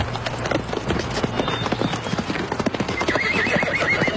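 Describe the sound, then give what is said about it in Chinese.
Horse hooves clip-clop in a steady run of many beats as a rider comes up on horseback, and a horse whinnies over the hoofbeats. “博尔树骑马过来，疾言厉色地问道。”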